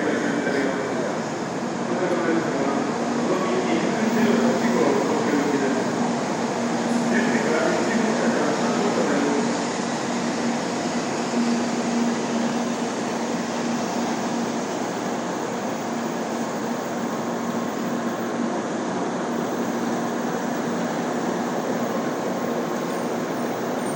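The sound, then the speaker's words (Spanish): A long train passes in a steady, continuous roar of rumbling and rushing noise. The sound holds at an even loudness for the whole span, with no clear breaks or separate events. “Qué largo es ese tren, ¿no?”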